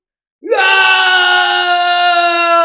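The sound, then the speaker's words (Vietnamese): A man's loud, sustained shout rises sharply in pitch at its onset, then holds a steady, strong tone to the end. “Liễu Minh ngửa mặt lên trời hét ra một tiếng”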